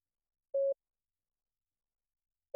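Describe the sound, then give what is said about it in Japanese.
An electronic beep tone: one short, steady, mid-pitched beep sounds alone against silence, and a second identical beep begins right at the end. “今まで聞こえていた電子音、こちらの音の位置が変わります。”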